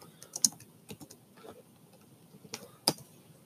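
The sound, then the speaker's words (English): Typing on a computer keyboard: a few irregular, sharp keystroke clicks with pauses between them. One click near the start is the loudest, and a couple of firm taps come near the end. No voices are heard. “If I can freaking type.”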